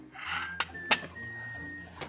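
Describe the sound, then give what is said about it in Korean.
A cooking pot is set out for making oyster rice soup: a few faint metallic clinks and knocks of cookware against a quiet background. “냄비 준비를 했어요.”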